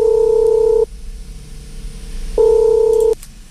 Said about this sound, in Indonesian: Oke, kita coba untuk telepon ya.